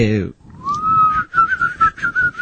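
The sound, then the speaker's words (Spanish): People whistle as someone walks away. A voice is heard at the start, then a whistle rises in pitch and settles into a long, wavering, high tone. “Y mientras te alejas, nosotros hacemos los silbidos.”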